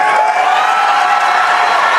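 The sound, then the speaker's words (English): A crowd at a Republican presidential primary debate reacts with loud, continuous cheering, applause and whoops that form an unbroken wall of noise. “Asked if they'd support him as the GOP nominee, even if he were convicted, eventually six candidates, including DeSantis, saying yes, as the crowd reacted.”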